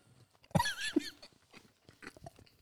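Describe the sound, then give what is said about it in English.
Biting and chewing on a whole spicy chicken wing: one loud, wet crunching bite followed by quieter chewing and a few soft mouth sounds. “I'm at this point not eating the whole wing anymore.”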